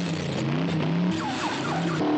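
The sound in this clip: A car buried in a snowbank tries to reverse out, its engine straining with rising and falling whines and squealing tire skids, a loud continuous burst with no voices.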